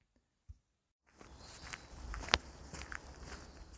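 Footsteps at the start of a walk along Hadrian's Wall. After a second of near silence with one faint tick, soft, irregular steps begin over a steady rustling background, with a few sharper scuffs.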